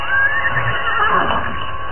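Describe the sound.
Horses neigh nervously in fog, giving one shrill, wavering whinny that fills the whole moment, loud and alone.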